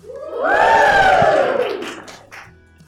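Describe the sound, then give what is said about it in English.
A live audience at a fundraising summit shouts hello together in one loud, drawn-out call. The massed voices swell quickly, rise slightly in pitch, then fall and fade over about two seconds. “That wasn't in any way rehearsed, was it? You did an absolutely brilliant job at saying hello. Yes, we are doing a live podcast recording.”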